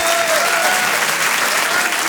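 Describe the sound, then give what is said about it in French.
Audience applause fills the Apollo Théâtre comedy club as a performer is welcomed, a thick, continuous roar of many hands clapping at an even level from start to finish. “Je vous demande de l'applaudir lui aussi très fort.”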